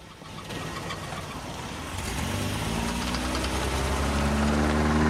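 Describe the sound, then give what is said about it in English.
An old grey car reverses out of a driveway and drives off. Its engine rumble builds steadily in loudness, and a steady humming drone emerges midway as it pulls away. No voices are heard. “She reverses out of the drive and heads off down the road.”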